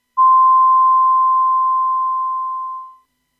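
A radio time signal marks six o'clock with one long, steady pure beep lasting about three seconds, loud and alone, tapering off at the end.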